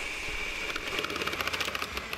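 An unreliable electric kitchen mixer runs with a steady mechanical whine and a fast, rattling series of clicking pulses over a constant motor hum, with no voices.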